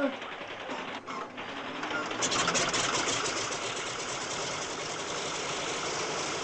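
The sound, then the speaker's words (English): A Lysander propeller aircraft engine starts up, a rattling mechanical clatter that grows louder after about two seconds and then settles into a steady, fast, buzzing run. “Well, switch on while I turn the prop.”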